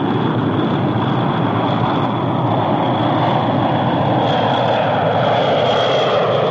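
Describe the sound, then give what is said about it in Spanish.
An airplane takes off from a Moscow airport, its engines giving a loud, steady roar of broad rushing noise with a faint high whine running through it, unchanging throughout and with no voices. “Poco después, un avión despega del aeropuerto de Moscú.”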